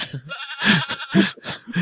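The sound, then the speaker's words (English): Goats and sheep bleating over a phone call, a run of several wavering, nasal bleats in quick succession. “She didn't even mention the fact that there's, like, sheep. Goats in the background.”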